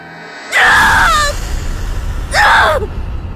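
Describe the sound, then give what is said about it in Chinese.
Woman screaming loudly: two piercing, high cries with falling pitch, the first longer and the second shorter, separated by a brief pause over a low rumble. “再次大叫出声”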